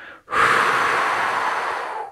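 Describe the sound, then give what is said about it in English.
A long, forceful exhale empties the lungs during a breath-holding exercise. The breathy rush starts abruptly and stays loud and steady for about two seconds before tapering off at the end. No voice is present. “And then try a breath subjugation. So you exhale all your air out and hold that.”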